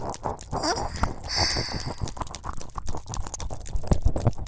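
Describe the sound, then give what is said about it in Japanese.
Wet licking and mouth sounds in the left ear form a steady run of irregular smacks, clicks and soft slurps, with no talking. “ほら、次は左耳なめなめ。左耳の奥の方まで舌が出たり入ったり。”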